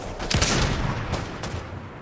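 Sniper rifle gunshots in a video game: a few sharp, loud cracks stand out over continuous noisy game sound.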